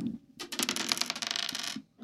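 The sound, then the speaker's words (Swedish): Six-sided dice clatter across a hard surface as they are rolled for a character's strength score in a tabletop game. It is a bright, rapid jumble of clicks lasting just over a second before it stops. “T6-tärningar slås här och nu.”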